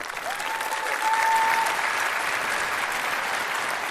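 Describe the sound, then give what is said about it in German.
A poetry slam audience applauds after a performer's score is announced. The applause is loud and sustained, a dense wash of clapping that swells slightly early on and then holds steady to the end. “Applaus!”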